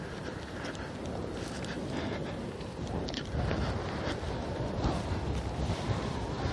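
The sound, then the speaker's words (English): Wind buffeting a walker's microphone on a sidewalk outdoors, a steady, fairly loud rushing roar with faint whistling flutters, no talking. “now that I've turned north, the wind is just whistling through my ears here.”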